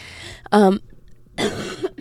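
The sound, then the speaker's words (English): Coughing spell from a person in the middle of recording themselves talking: two harsh, forceful coughs about a second apart, the second longer and rougher, with a quiet pause between them. “I'm going to try to cough and then continue recording. Okay, I got my coughing spell out of the way.”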